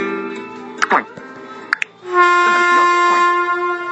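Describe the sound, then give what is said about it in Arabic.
A vehicle horn blares a sustained, brassy harmonic tone for the last two seconds, after quieter tonal sounds and a couple of sharp clicks earlier on. “هورن صوت بوري هذا صوت أيضا هذا صوت”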